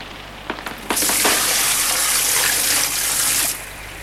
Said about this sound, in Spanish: Decididamente cogí un cubo de agua que vertí sobre las llamas. El estrepitoso sonido del desvanecimiento de las llamas inundó la habitación